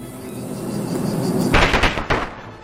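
An insect-type attack effect called Plague plays in a monster-battle video game: a low droning rumble builds before sudden loud crackling bursts erupt midway, with one sharp hit standing out near the end before it fades.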